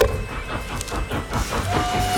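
A train rolling along the railway, heard as a steady, rhythmic low rumble with repeating pulses. A thin, steady tone joins in near the end.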